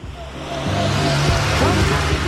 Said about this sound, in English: It's just the car driving by.